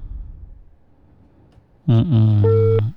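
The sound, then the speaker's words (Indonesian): Disconnected-line tone after a telephone call is cut off. It is a loud, buzzy, harmonic tone that starts abruptly after near silence, with a steady higher beep in its later part. “Terputus ya, menelpon tadi sayang sekali. Halo, assalamualaikum. Itulah terputus ya.”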